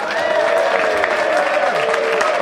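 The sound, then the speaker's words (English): Audience applause at a live comedy show as the host is welcomed on stage: steady, dense clapping throughout, with a few held tones running underneath. “It would mean more if I hadn't done a special sign to make you applaud.”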